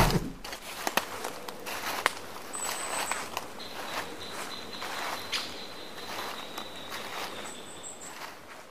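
Footsteps walk along outdoors toward a beer garden, a steady run of soft steps over constant insect and cricket chirping, with a few thin high tones drifting above.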